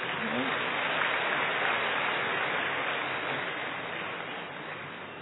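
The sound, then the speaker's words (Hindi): Audience applause at a spiritual gathering, a hissing, even wash of clapping that holds level and then fades slightly near the end. “अमूल्य आत्माएं आप सभी आए हैं, जरूर अपने लिए ताली बजाओ।”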